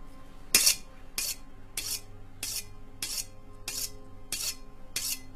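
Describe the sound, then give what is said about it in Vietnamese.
A knife is sharpened in a kitchen with many evenly spaced rasping strokes about every 0.6 seconds. Each stroke is a bright, hissing scrape over a low, steady background. “Bỗng nhìn đâu đó vang lên tiếng gì giống như là gia nhân ở dưới bếp đang mài dao vậy.”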